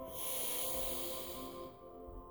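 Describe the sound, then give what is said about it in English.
A long, deep breath is drawn in through the nose and mouth as one quiet, steady airy rush that tapers off toward the end. “Hold it and exhale. Take a really deep breath in through the nose and mouth.”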